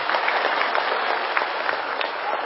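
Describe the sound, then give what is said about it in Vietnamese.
Audience applause after a song at a Vu Lan rose-pinning ceremony at a monastery. A dense, even wash of clapping holds steady throughout, with no pauses or voices. “Xin quý vị cho một tràng pháo tay.”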